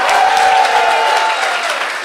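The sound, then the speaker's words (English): Audience applause and cheering at a comedy show in Bristol as the evening's acts are thanked, a full, steady wash of clapping that eases slightly toward the end. “give a big round of applause to all of our acts”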